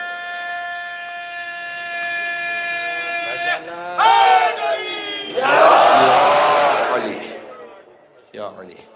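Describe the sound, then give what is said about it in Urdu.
A crowd shouting a religious slogan together at the final call of a ten-day gathering honouring Imam Ali: a long, sustained, tonal lead call gives way to a loud burst of many voices in unison, then a short final shout. “اشرے کا آخری نعرہ مل کے, آخری نعرہ میں جا رہا ہوں”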